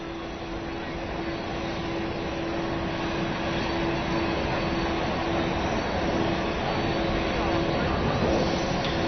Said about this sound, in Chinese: 我们现在看到的是北京首都国际机场，就在刚刚啊，特朗普总统已经登上专机，准备离开中国